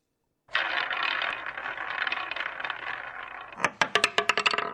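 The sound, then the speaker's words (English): A prize wheel spins, first with a continuous whirring rattle, then with a run of sharp, separate clicks near the end as it ticks past its pegs. “All right, let's get to it. Spin that wheel.”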